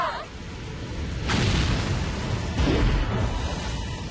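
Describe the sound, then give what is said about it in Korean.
A rocket lifts off after a countdown with a broad, roaring whoosh. The rumble swells and stays loud and sustained to the end. “7, 9, 8, 7, 6, 5, 4, 3, 2, 1, 발사!”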